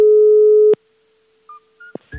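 A telephone call tone: one steady mid-pitched tone lasting under a second, cut off by a click, then a few brief faint beeps and clicks.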